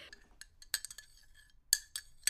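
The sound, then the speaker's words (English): Cups clinking while someone drinks tea: a few light, sharp glassy chinks come at irregular moments over faint background, with no talking. “That was me drinking tea.”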